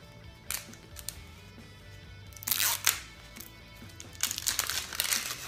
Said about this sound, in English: So it comes in this container. You can just tear it open.